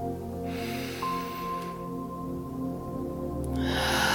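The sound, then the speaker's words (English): A slow, deep breath is drawn in, heard as a soft airy hiss over quiet sustained music, with another breath beginning just at the end. “Take a few moments to take a deep breath. Just put your hand over your heart and inhale.”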